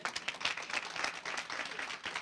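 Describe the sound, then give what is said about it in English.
Audience applause and hand clapping: a dense, even patter of many hands at a steady loudness, with no pauses, filling the whole moment. “Give them a hand clap.”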